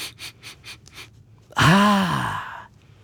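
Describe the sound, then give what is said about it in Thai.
A quick series of about five short, breathy sniffs as a keen-nosed creature smells the air for food, then a loud voiced exhale whose pitch rises and falls. “เจ้าปีศาจจมูกไวก็ใช้จมูกของมันสูดกลิ่น”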